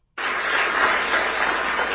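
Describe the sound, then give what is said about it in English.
Crowd cheering and applause after an indictment announcement, starting abruptly and holding as a loud, steady wash of noise without any break. “There's a whole bunch of cheering. And then after the cheering dies down, he gets to the meat and potatoes here on what's going on.”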